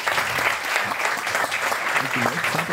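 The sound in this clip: A Danish studio audience applauds: dense, steady clapping holds at an even level throughout, with voices emerging faintly near the end.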